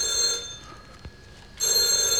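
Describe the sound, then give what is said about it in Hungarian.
A telephone bell rings in two bright, steady bursts separated by a short pause, with faint background noise between them. “A telefont majd én felveszem.”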